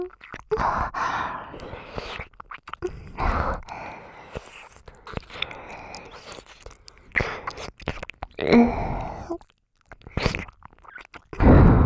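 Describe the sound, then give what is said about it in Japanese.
Close ear-eating mouth sounds, with wet smacks, licks and soft chewing-like clicks mixed with breathy sighs and gasps, continuing unevenly throughout with short pauses. “お耳おいしいよ。弟のかわいいお耳食べるの興奮しちゃう。”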